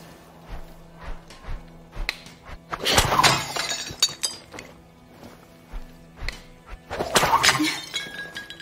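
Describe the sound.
Objects shattering as they are shot in a video game: two loud breaking crashes with glassy clinks, separated by several softer knocks and thuds.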